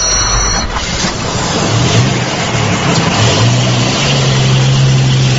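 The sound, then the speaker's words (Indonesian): A car driving at night, its engine giving a steady, continuous low drone with a slight hum, unbroken throughout and with no voices. “Kami berkendara dengan mobilku menuju ke lokasi yang kurang lebih jaraknya setengah jam dari tempat tinggalku.”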